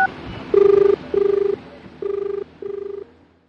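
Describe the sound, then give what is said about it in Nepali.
Telephone ringback on a call to the traffic police: four pulsing, warbling tone bursts arrive in two pairs. The first pair is louder and the second slightly fainter. “अब मैले जाने छ, अब phone गर्छु नि।”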